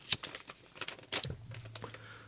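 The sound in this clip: A sticky sealed envelope is opened gently, giving several short papery tearing rips and crinkles. The rips come in uneven bursts, with a sharper tear near the start and another around the middle.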